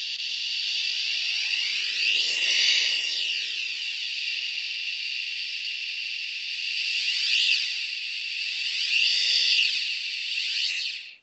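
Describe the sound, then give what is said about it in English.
A steady breathy "shh" hiss made by a person while a serving tray moves toward and away from the face, its sound swirling into a phasing swoosh that swells a few times over the long, even hiss. “It happens to be a serving tray. So what you heard was a tray moving toward my face and away from my face.”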